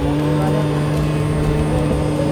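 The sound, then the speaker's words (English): Steady electric hum and whine from a Tesla Model X rear seat motor at an EV car show in a parking lot. Fairly loud, the motor holds a low drone with constant whining tones throughout, with no change in pitch. “The only sounds are like this Tesla Model X rear seat motor.”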